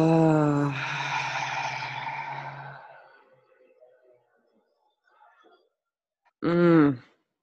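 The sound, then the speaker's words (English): A deep inhale through the nose and a full exhale through the mouth, a long breathy whoosh that slowly fades, with a short voiced tone before it and another near the end. “Taking a deep inhale in through our nose. Full exhale out of our mouth.”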